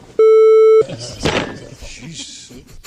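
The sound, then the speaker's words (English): A censorship beep covers a man's cursing: one loud, steady pure tone holds for about half a second, then cuts off as people talk. “He bangs on the table twice. One was beeped out while he was cursing.”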